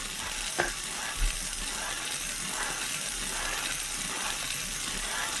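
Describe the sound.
Lottery drum being spun to draw a numbered ball: a steady, continuous rattling churn of tumbling balls, with a couple of sharp clicks early on.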